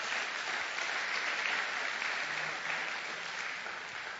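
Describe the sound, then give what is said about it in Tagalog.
An audience applauding during a church service: dense, steady clapping that holds at an even loudness for the whole stretch, with no voices standing out above it. “palakpakan natin ang Panginoon.”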